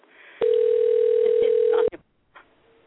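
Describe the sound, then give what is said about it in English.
A telephone dial tone sounds as one steady, loud, unbroken hum for about a second and a half, then cuts off abruptly, followed by faint handset noises. “I'm going to try doing this again. And this time, okay, going to dial again.”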